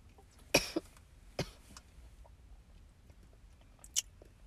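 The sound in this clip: Faint, short coughs come from someone choking after something went down the wrong pipe. A few quick bursts sound close together, and one more follows after a longer pause.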